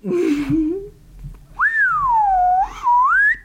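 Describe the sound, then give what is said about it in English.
Slide-whistle sounds made by a person: a short low wavering glide, a pause, then a swoop up to a high pitch that sags, rises again and holds, alone with no talking. “Let me tell you, I made this noise. Anyway. That girl just gets turned on every time she hears a slide whistle.”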